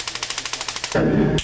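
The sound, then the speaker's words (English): A taser fires with a rapid, even train of sharp electric clicks, then breaks into a louder, continuous crackling buzz that cuts off abruptly after about half a second. “What do you think when you hear this sound? This is the sound”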